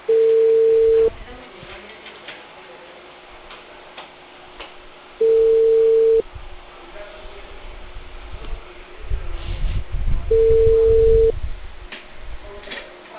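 A telephone call tone sounds on an outgoing call to a customer, as three steady, mid-pitched electronic beeps about one second long, evenly spaced by roughly four-second gaps. Faint background noise and low rumble fill the gaps.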